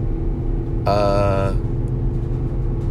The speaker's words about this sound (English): Man, my car is really struggling up this hill.